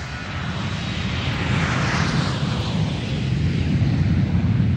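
A passenger airplane roars as it takes off on a flight to America, a dense, loud, rumbling engine noise that holds nearly level throughout, alone with no voices.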